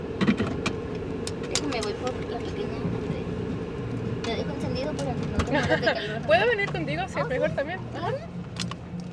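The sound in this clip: A car driving across the border from Presidio into Mexico and pulling up at a daycare: steady low engine and road rumble with scattered clicks and knocks, and indistinct voices in the background.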